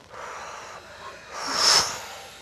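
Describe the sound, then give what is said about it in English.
A person breathing out hard in a deliberate breathing exercise, pushing out the last breath. One forceful, breathy rush of air swells to a peak and fades over a faint steady background. “really breathe out the last breath hard, and then your next breath will come in fuller. So let the breath out.”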